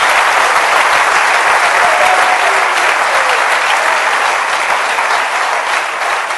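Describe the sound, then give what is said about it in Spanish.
Applause from a church audience praising during a service: dense, loud, steady clapping that fills the whole clip, easing slightly at the end. “Dele un aplauso al Rey bendito”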